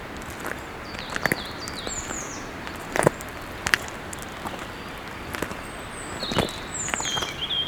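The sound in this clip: Footsteps walking outdoors: a few irregular, crisp steps crunch on the ground, with faint bird chirps scattered in the background.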